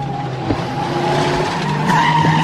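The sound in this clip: Tires squeal as a car skids through a curve at speed, a loud sustained screech over a steady engine roar that lasts the whole clip with no talk.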